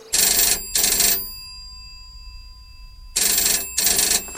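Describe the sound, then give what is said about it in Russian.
A telephone bell rings in two loud double rings. Each cycle has two bright, buzzing bursts close together, and a long silent gap separates the first pair from the second. “пускай дальше выгружают, а я пойду на телефон.”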